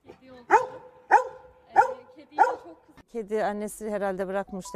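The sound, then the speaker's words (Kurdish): Four sharp, evenly spaced barks from a golden retriever guarding a kitten. A person then talks over the last part. “بە شێوازێکی سیر پارێزگاری لێ دەکات و بەسەر هەر کەسێکدا دەوەڕێت کە بیەوێت لە بێچووە پشیلەکە نزیک ببێتەوە.”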